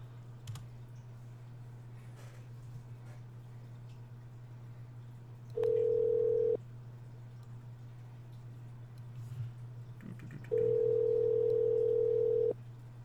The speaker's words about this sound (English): So let me make this call.